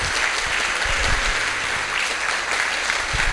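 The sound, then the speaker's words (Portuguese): Loud, steady applause from a church audience, dense clapping that holds at an even level throughout. “pode dar uma salva de palmas”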